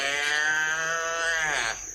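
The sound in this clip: A calf on a farm bawls in one long, drawn-out call, loud and harmonic with a steady pitch throughout, alone with no talk.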